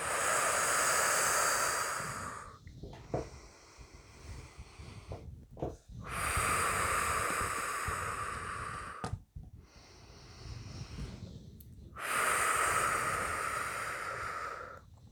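Slow, deep breathing in and out during a guided breathing exercise, with long, airy, hissing breaths. Strong, loud phases alternate with softer, quieter ones in an even rhythm, and no voices are heard.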